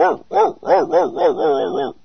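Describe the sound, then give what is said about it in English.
Dog barking comes as a rapid string of high, yapping barks with rising-and-falling pitch. The bursts are loud and packed closely together, running into one another over about two seconds. “Was that you or the dog? It must have been the dog.”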